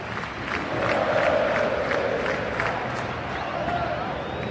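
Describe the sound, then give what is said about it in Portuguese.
Stadium crowd of Palmeiras fans singing happy birthday in the stands on the club's 112th anniversary during a match: a dense, loud wall of massed voices holding a sustained tune, with a roar of crowd noise throughout. “E o parabéns rolando agora nas arquibancadas.”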